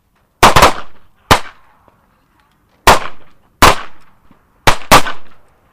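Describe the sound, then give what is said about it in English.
Sharp handgun shots at a shooting range during a concealed carry class, several loud cracking reports in irregular bursts, some fired in quick pairs, each decaying fast into quiet. “three rounds, three times, three rounds, three times, fire.”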